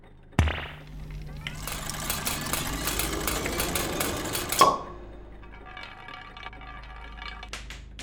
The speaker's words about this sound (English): Something just popped out of the machine and is rolling over the floor. I think it's a. a marble.